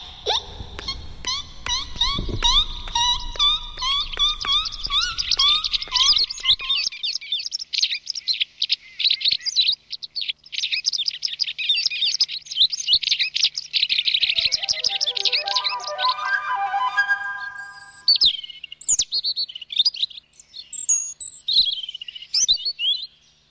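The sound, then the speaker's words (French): A child's voice imitates a white wagtail's call with many quick, high chirping whistles in rapid bursts, dipping lower in pitch for a stretch before rising again into sharp, scattered chirps. “j'imite la bergeronnette grise.”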